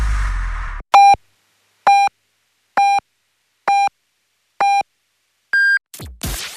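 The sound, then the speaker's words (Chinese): Radio time signal pips marking the hour on Beijing time: five short, even beeps about a second apart, followed by a sixth, higher-pitched beep, with brief audio before and after the sequence. “Now is Beijing time. 2:00.”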